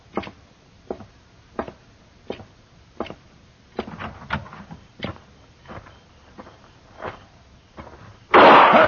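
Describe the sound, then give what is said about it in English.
Gunshot in a radio western drama: a single loud, sharp burst near the end, preceded by a steady series of dull, evenly spaced knocks. “Mr. Dillon, you've been shot.”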